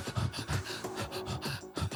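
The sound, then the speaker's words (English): A voice imitates a backing-track sample of breaths, making a quick rhythmic series of sharp, breathy inhales and exhales, fairly faint and with no words. “it's like kind of like sharp inhaling and exhaling like that.”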